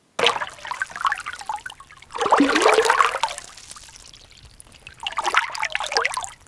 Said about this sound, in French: L'eau dégouline, le bois est fendillé.